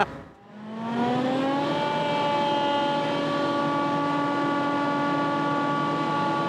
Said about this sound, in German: Schichtwechsel auf dem Häcksler.